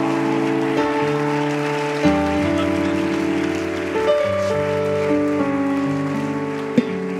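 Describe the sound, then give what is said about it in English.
Applause welcomes a preacher at the opening evening service of a junior church camp in Arkansas: steady clapping mixed with sustained instrumental music. “So let's give him a good Arkansas welcome. Brother James Wilson, to come preach to us.”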